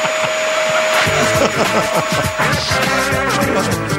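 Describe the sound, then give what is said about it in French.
A vacuum cleaner runs with a loud, steady whooshing roar and a constant high whine. After the first second, busier clustered tones join it and continue over the motor noise. “parce qu'assis sur une balayeuse, il pourrait aller moins loin à cause du fil”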